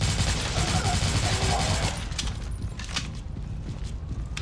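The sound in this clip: Rapid gunfire from zombie shooting in a video game: dense, loud bursts of overlapping shots fill the first two seconds, then thin out into sparser, quieter cracks.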